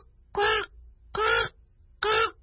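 Crow cawing: three loud, harsh caws, each about a third of a second long and evenly spaced, heard alone against a quiet background.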